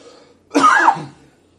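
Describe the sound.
A person clears their throat once, a rough, gravelly burst lasting about half a second, fairly loud and alone against near silence.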